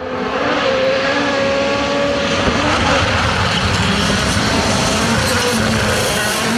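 Rally cars taking a corner at the Acropolis Rally produce a loud, continuous engine roar with steady droning tones that holds without a break throughout.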